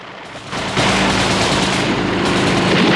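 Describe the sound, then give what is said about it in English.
Machine gun fire from turrets on an oil rig platform during a helicopter attack: a loud, dense, continuous roar of automatic fire that starts, builds in two steps, then holds steady, with no clearly separated shots. “Blofeld's guards open fire with the machine gun turrets.”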